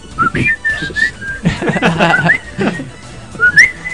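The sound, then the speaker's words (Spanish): A person whistles short, high, wavering phrases that come and go in brief bursts, with some rougher, noisier sounds between the notes. “El silbido.”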